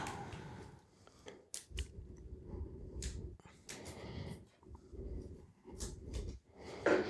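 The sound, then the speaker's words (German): Scissors cutting open a tea package: a few crisp, crackling bursts of plastic or foil and snipping noises, fairly faint, with no talking over them. “Dann mach du, schneid nur ganz knapp ab, damit wir das noch benutzen können.”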